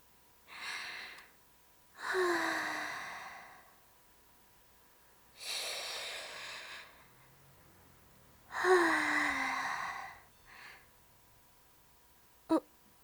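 A person takes slow, deep breaths: several long, airy breaths separated by pauses, with a shorter breath after them and a sharp click at the very end.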